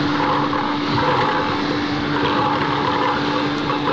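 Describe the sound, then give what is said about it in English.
A bingo ball blower machine blows with a loud, steady whirring roar and a constant hum underneath, holding an even level throughout with no talk. “the Sunshine Radio engineers come in and fit up all the microphones around the bingo blower so as you can hear it merrily blowing away”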